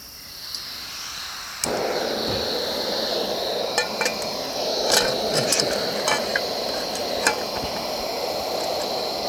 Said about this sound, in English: Just gonna pour everything in there. First, let's start the stove.